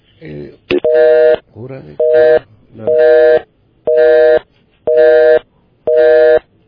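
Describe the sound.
A telephone busy tone plays after a caller's line drops: steady, evenly spaced mid-pitched beeps repeat about once a second, with a voice talking briefly between the first few.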